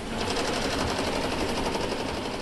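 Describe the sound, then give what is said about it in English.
Sewing machines run in a sweater factory, a fast, continuous mechanical whirring and rattling that holds steady throughout with no talk. “Next to piles of sweaters embroidered with figures of reindeer, young men hunch over sewing machines.”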